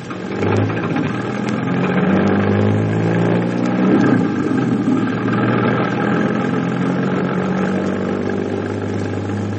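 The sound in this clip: A car engine hums steadily while the car is driven, a continuous mid-pitched drone with little change in loudness and no voices throughout.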